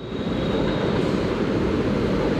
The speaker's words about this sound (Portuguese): Olha o barulho do trem vindo.